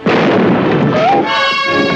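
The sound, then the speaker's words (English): A film gunshot goes off as a single loud, booming burst with a rumbling tail, and a sustained tonal sound follows as it fades. “Oh, you shot him!”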